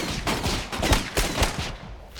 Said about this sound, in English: Chief Wiggum, Lou and Eddie riddle the sand with bullets.